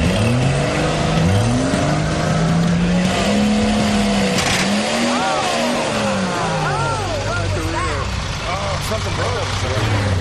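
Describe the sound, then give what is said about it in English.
A race car's engine roars and revs with swooping pitch. Near the middle, a sharp metallic clang sounds as the drive line breaks, and the engine keeps droning afterward. Voices run underneath throughout. “Something broke. I heard something clang, and that doesn't sound good. Broke a drive line, I'd say.”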